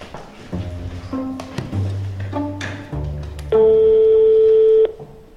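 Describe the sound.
A telephone ringback tone sounds while a call to a neighbour connects: one loud, steady, buzzing tone lasting over a second near the end, preceded by a stretch of mixed, uneven tonal sounds.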